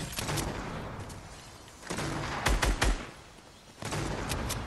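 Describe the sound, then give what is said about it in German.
Gunfire in the video game Fortnite, including shots from an exotic weapon, comes in a few rapid bursts of crackling shots separated by short lulls, loud and sharp with no talk over it. “Einer schießt mich an mit einer exotischen Waffe.”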